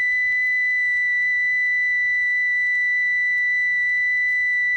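A steady sine-wave test tone, announced as one million cycles: a single pure, whistle-like pitch held unchanged throughout, alone over a faint low hum.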